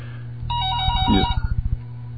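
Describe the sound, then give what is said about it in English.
Telephone ringing with an incoming caller: an electronic ringtone sounds a sustained bright tone, then breaks into a quick run of short, even pulses over a constant low hum. “All right, I think we might have a caller coming in here, so just bear with me. All right, somebody's going to answer that, and then we'll find out.”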